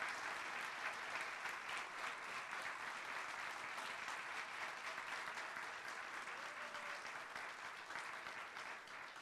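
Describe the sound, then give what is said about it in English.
Audience applause honouring an unsung hero invited to the front at a gathering: a long, steady round of clapping, fairly faint, with many hands and no voices over it, easing slightly toward the end. “So I'm going to ask you to come up here with me and let us give you a round of applause for who you are and who you're becoming.”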